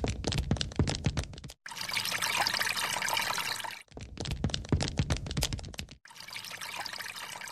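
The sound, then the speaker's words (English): Water splashing while someone washes their face at a bathroom sink: spattering splashes alternate with two long stretches of steady running water, each ending in a brief pause. “Have you washed your face yet? No, I haven't. I'm washing it now.”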